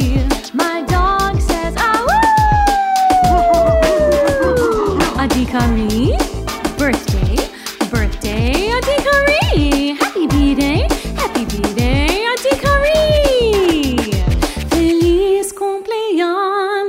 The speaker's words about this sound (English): My dog says, to you